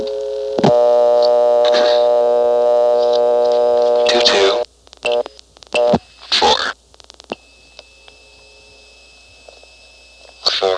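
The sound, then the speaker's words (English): Telephone dialing of 22, then 44, into a noisy N carrier trunk to Montpelier: a steady buzzing tone gives way to sharp clicks and several short noisy bursts, then a quieter line with a faint held tone and a final burst. “Here's dialing 22 that goes into the noticeably noisy N carrier trunk to Montpelier, then 44.”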